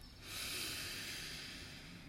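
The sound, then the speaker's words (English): A slow, deep breath in during a guided relaxation, heard as a faint, airy hiss that swells and holds for nearly two seconds, alone without speech. “Let's take a nice deep breath in.”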